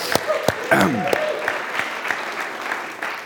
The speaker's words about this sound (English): So, can we just give it up again for Rita?